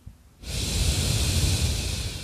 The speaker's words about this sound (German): Und beobachte einfach mal ein paar Atemzüge. Einatmen.